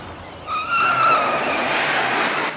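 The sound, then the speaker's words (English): A car swerves with its tires skidding, a high, sustained squeal that starts abruptly and holds for about two seconds over rushing road noise. “She frowns and they swerve onto a long drive.”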